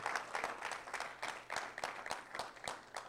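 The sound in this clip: Applause from a church audience welcoming a first-time guest, a faint but steady patter of many hands clapping without a break.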